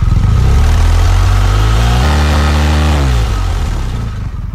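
A police motorcycle engine revs hard and steadily during a roadside noise measurement, a loud, continuous roar whose pitch dips partway through, settles into a steady drone and eases slightly at the end.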